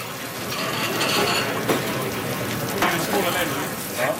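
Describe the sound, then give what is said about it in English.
A potato dish sizzles in a deep fryer with a steady, dense hiss of bubbling oil, broken by a few faint clicks and clatters. “I reckon most tables will order one of the potato dishes, no matter what. So that goes in the fryer.”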